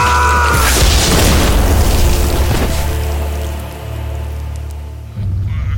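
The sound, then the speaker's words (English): An explosion sound effect for a man's head bursting: a loud, heavy boom that rolls into a long rumbling decay and gradually thins out, then a low steady drone cuts in near the end. “6 years of curses and magical weapons at last find their target. And Sykes's head explodes.”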